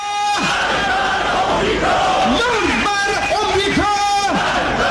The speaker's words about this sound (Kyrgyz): ошол эле учурда бийлик айыптаган чет мамлекеттерден, анын ичинде АКШ'ны жектеген уран чакырыктар айтылып жатты.